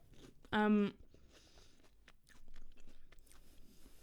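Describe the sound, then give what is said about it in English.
Crunchy onion rings being bitten and chewed: a brief loud tonal burst, then soft, uneven crunching and mouth sounds spread over the next few seconds. “I'm sorry, I'm gonna eat onion rings. I'm so hungry.”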